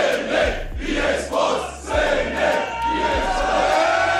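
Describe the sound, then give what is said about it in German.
A crowd roars at a battle rap event pitting PA Sports against Cynic, a loud, sustained wash of voices over low, pulsing thumps that repeat through the stretch. “Und da hört man schon, die Stimmung war ziemlich krass. Seit Monaten haben sich die Fans auf dieses Duell gefreut.”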